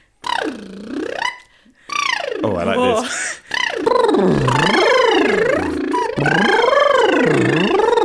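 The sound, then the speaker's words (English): Lip trills from a vocal warm-up: buzzy, fluttering voiced sounds that sweep up and down in pitch in a few wavy phrases, with a brief spoken remark near the start. “We do lip trills, so it sounds like this.”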